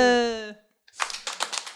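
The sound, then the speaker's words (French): Hand clapping breaks out after a voice calls out at the start and a short pause, then goes on as a run of quick, sharp claps of varying loudness. “on s'applaudit à la fin”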